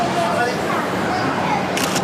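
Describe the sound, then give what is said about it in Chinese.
Two quick, crisp camera shutter clicks land close together near the end, above a steady wash of background noise. “快门一按，效率。”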